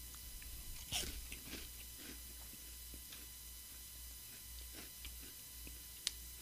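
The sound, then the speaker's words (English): Crunching of vanilla lime wafers from Brazil: many faint, crisp bites and chews scattered over a steady low hum, with one sharper snap near the end. “That tastes like a lime. That's nice. I like that. It is very good. Mm-hmm. Vanilla lime wafers from Brazil.”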